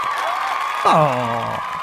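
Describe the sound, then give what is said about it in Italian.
Applause rattles steadily throughout, and a single voice cuts in midway with a short, falling-pitched whoop. “Qui ci stavano dei belli applausi”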